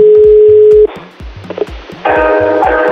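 A telephone call being dialed: a steady dial tone, then a few short clicks from the dialing, then a buzzing line tone, over a repeating low rhythmic pattern.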